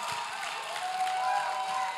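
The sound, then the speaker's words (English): A church audience claps for newly born-again members returning to their seats, a steady, dense wash of applause with crowd noise beneath. “Give your new brothers and sisters a big hand clap as they go back to their seat.”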